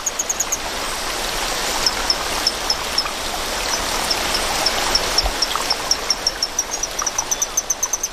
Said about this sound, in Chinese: 水流的声音还是太大了，需要更强效的措施